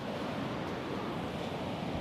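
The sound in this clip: Ocean waves at a surf beach in the evening, with surfers out in the water: a steady, dense roar of surf with no distinct single breaks, loud and constant throughout.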